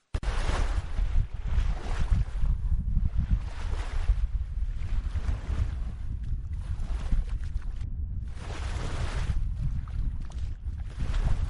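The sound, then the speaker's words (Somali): A fishing boat moves through Red Sea waters off Djibouti, giving a continuous rushing roar of engine and water with buffeting wind noise. The sound holds steady throughout and dips briefly near the end. No talking is heard. “doonidiisa oo xilliga dhex maraysa biyaha badda cas ee dalka Jabuuti”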